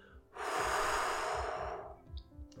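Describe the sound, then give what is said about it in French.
A long, steady exhalation pushes out the remaining air at the close of a breath cycle in a vowel-chanting exercise. It is a soft, airy rush lasting about a second and a half, then fading to near silence. “À la fin, on peut expirer l'air qui reste à l'intérieur de nous.”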